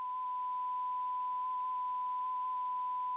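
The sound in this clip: Electronic tone of the 1974 radio message carrying basic information about Earth and humanity, transmitted toward the M13 star cluster. A single faint, unbroken mid-high pitch holds steady over a soft hiss, with no voices.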